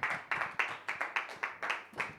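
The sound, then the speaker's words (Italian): Applause and clapping from an audience at a comedy night, a series of about eight strong rhythmic bursts of hand claps, each swelling and fading in a steady pulse, with no voices over it. “Alberto Vitale, un grande applauso.”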